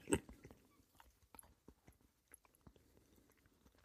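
A Schlager Süßtafel chocolate bar with whole nut pieces is chewed. Many soft, crunchy bites and moist mouth sounds come in an irregular rhythm, faint and alone.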